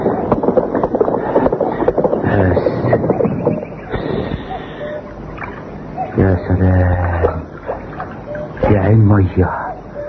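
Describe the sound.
Horse hooves clip-clopping at a walking pace in open country, steady rhythmic knocks running beneath people talking, with a breath of wind in the background.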